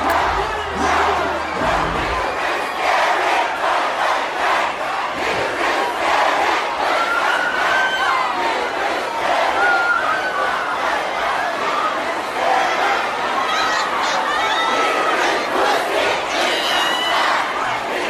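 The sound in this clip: Crowd cheering and shouting erupts during a music track, a loud, dense roar of many voices that holds steady for the whole stretch without a break.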